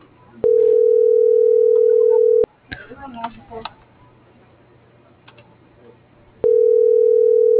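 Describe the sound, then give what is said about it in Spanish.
A steady, low telephone dial tone sounds after a dropped call. It is loud and unbroken for about two seconds, then cuts off into clicks and faint handling noises before the same tone comes back on. “se cortó la llamada”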